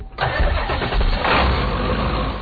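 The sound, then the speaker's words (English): A small diesel bus engine starts on a dirt road: a quick cranking catch, then a loud, steady, rough low rumble that holds to the end. “On a dirt road in central South Dakota, a small diesel bus is stirring up dust whenever it starts.”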